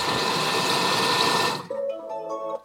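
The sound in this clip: Robotic mixing machine: a loud, steady motor whir that cuts off abruptly, followed by a quieter tonal whine that fades out.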